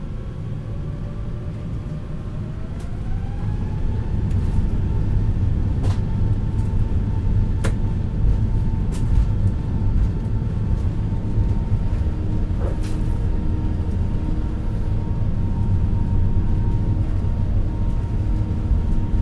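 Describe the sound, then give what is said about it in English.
Airliner engines spool up as the plane accelerates down the runway for takeoff. A steady low roar swells after a few seconds, a whine rises in pitch, then both hold loud with a few faint clicks over the rumble. “Those two dongs mean that we're the next flight to depart. You will hear us accelerate.”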